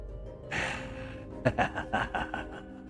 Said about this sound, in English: And the dragon is, you can hear it huffing and breathing in its excitement, in its enjoyment of the tense moments.